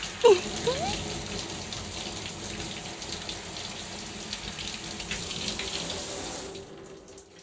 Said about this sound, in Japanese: そして今度はこっち側をちょっと流し忘れがないように完璧にしちゃいますから。